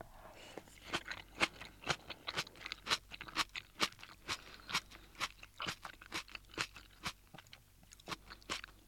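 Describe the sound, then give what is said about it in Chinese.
Crisp crunching as someone chews napa cabbage cooked in a miso soup base. Many quiet, sharp bites and chews repeat in a fairly steady rhythm, with no talk. “而且这个汤底的咸度够，所以说这个白菜会显得更加的鲜甜脆爽，真的是很好吃。”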